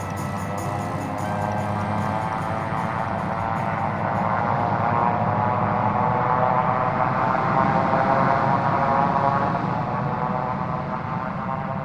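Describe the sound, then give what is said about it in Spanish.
A propeller airplane takes off from Corsica on a 1944 wartime mission, heard as a loud, continuous engine drone. It holds steady for the whole stretch, with a slight swell in the middle. “El piloto despegó de Córcega a las 8.45 del 31 de julio de 1944”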